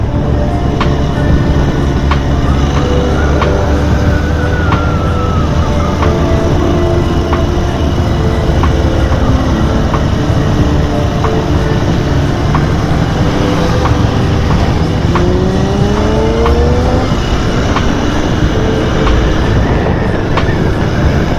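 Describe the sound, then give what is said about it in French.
Large-displacement motorcycles, including sport, custom and Harley bikes, rumble in a loud, continuous engine drone, with overlapping engine tones rising and falling as machines pass throughout. “Aujourd'hui, de la grosse cylindrée, de la sportive, de la custom, de la Harley.”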